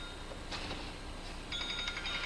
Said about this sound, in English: Somebody's phone?